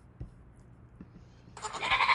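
A goat's bleat played back from a recording bursts in loud and harsh near the end, after a quiet stretch broken by a few faint low knocks, and runs on to the finish.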